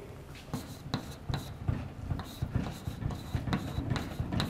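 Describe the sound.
Handwriting as 'bit per second' is written out during a lesson: many short, faint scratching strokes in quick irregular bursts.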